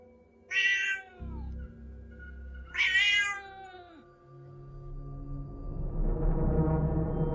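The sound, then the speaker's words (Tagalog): A cat meows strangely: two drawn-out, wavering meows a couple of seconds apart over a steady low drone, with rumbling noise building toward the end. “Tumahimik ang pusa sa kakaiba niyong pagngiyaw.”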